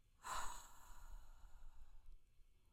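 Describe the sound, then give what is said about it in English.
A group breathing in and out together during a guided breathing exercise: one soft, airy rush of breath swells early and then fades into a faint, breathy hush. No voices are heard. “So let's start with our breath. We're going to breathe in together three times.”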